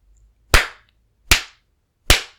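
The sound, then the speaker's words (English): An open hand spanks bare buttocks in three sharp, loud smacks. They are evenly spaced, each a crisp crack with a short fade and silence between. “Hearing the smack as my palm bounces off your ass?”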